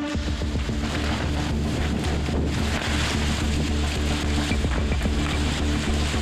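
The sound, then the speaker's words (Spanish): Strong October wind roars and buffets against the protective tarp over the tents of a field hospital in Licantén, a loud, continuous rushing with rough flapping noise throughout. “Este video fue captado en octubre por los propios funcionarios del hospital. El fuerte viento destruyó la lona que protege las carpas.”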